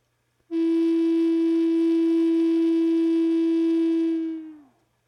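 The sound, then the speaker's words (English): A single note blown on a six-hole wind instrument with all six holes covered, a pure, steady low tone held alone for about four seconds before sagging slightly in pitch as the breath fades. “6 fingers covering 6 holes. I take a deep breath, and with all 6 holes fully covered, I blow.”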